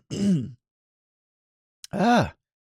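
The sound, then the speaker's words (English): Throat clearing by a person with phlegm in the throat. Two short, voiced, rasping bursts are separated by a pause of over a second, and a faint click comes just before the second. “I have phlegm in my throat.”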